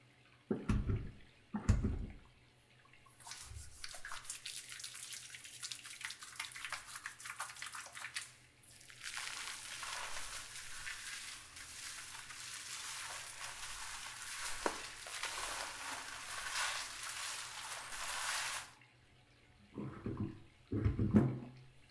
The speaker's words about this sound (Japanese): じゃあ、シャンプーで洗っていくわね。